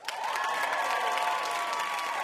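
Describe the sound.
Applause and cheering from a game show studio audience welcoming a contestant: a continuous wash of clapping that starts at once and holds steady throughout.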